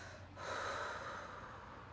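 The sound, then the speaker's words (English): A slow, deliberate exhale during a guided relaxation breathing exercise: one soft, airy breath that swells after a brief pause and holds steadily to the end, with no talking. “All right, and now we're going to exhale.”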